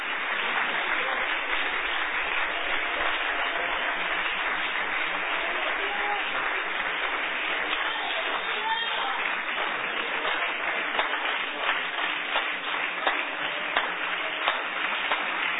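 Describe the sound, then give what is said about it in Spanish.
An audience at a church sermon gives long applause to Christ: a continuous, dull wash of many hands clapping holds at a steady level for about fifteen seconds. “Darle un aplauso largo a Cristo, que Él se lo merece. Un aplauso largo en los que cambian eso allá.”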